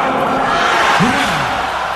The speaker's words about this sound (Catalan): Estem molt orgullosos dels nostres soldats i proposo que els honorem amb una salutació de tres urres.